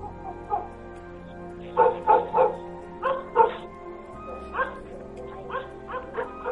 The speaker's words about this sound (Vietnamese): nghe tiếng chó sủa dữ dội, rồi tiếng ăng ẳng như là tiếng chó bị thương, nghe nó thê thảm lắm.